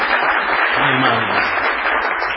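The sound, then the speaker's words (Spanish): Audience ovation welcoming a guest onto a television show, recorded in a warehouse venue, a steady, dense wash of applause sustained throughout. “con gente amiga que ha llegado esta noche y que va a saludar ahora con una ovación inolvidable a Patricio Barton.”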